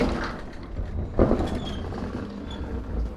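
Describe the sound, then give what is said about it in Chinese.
A wooden door and a sliding lattice gate of an old traditional house are opened, with one solid clunk partway through over a continuous low rumbling background. “打开木门，拉开趟笼，推开最外面的吊脚门”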